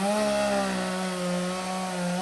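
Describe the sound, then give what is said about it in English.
A chainsaw cuts up the remains of a fallen magnolia tree after a disaster, its engine holding a steady buzzing whine with strong harmonics, slightly wavering in pitch, running alone without talk. “used a chainsaw to cut up what was left of his parents' stately magnolia tree”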